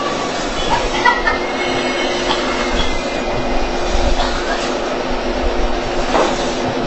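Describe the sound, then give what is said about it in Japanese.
A rapid express train pulling into a platform at a Japanese railway station, producing a continuous loud rumble and rattle of wheels with faint high squealing throughout. “到着は快速急行の豊橋行きでございます。”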